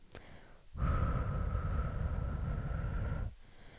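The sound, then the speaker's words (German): A slow, controlled exhale through the mouth, a breathy hiss with a faint whistling edge. It holds steady for about two and a half seconds, then stops, with no voices. “Atme nun jetzt sofort langsam und kontrolliert durch den Mund aus und zähle bis vier.”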